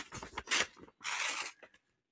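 An envelope being torn open, heard as two broad bursts of papery tearing and rustling, the second longer than the first, followed by silence.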